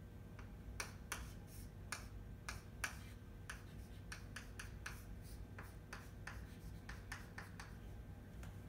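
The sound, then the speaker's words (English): Chalk or marker strokes on a board as a guanosine structure is drawn in a general chemistry lecture: many short, dry scratches in an irregular rhythm, faint, over a low steady hum. “And then from there we have this, which is another component. And we're drawing guanosine.”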